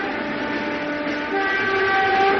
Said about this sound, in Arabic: كانت المفتشة خديجة شلال على متن القطار المتوجه من فاس إلى وجدة.